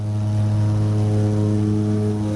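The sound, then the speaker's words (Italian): A twin-engine Ilan Pacific Air propeller plane takes off from a small airport, its engines giving a loud, steady, buzzing drone with strong low hum that holds even throughout. “Il bimotore della Ilan Pacific Air si alza in volo con un balzo elastico.”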